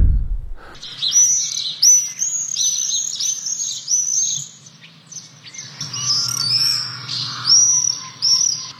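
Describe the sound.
Shrill screaming calls of common swifts, all-black birds with long wings, come in many overlapping high-pitched bursts that carry on without a break. No one speaks.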